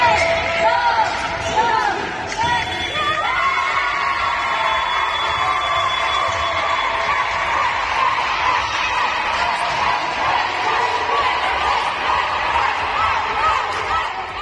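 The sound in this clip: Cheering from a women's handball team from Málaga celebrating a European Cup quarter-final win that sends them to the semifinals: a dense, sustained wash of excited shouting voices that stays loud and steady throughout.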